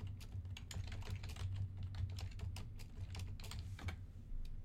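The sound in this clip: Rapid clicking of a computer keyboard as a prompt is typed. Many quick, faint keystrokes run over a steady low hum.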